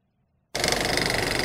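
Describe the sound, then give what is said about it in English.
A voice imitates a playing card flapping against a bicycle wheel's spokes. After silence it starts abruptly as a fast, loud, raspy rattling buzz that stays even to the end. “I'm riding my bike and I put a card on the wheel. So the card was making a noise on the wheel.”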